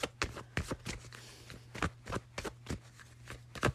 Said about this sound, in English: Let me pull a few more cards before I let you go.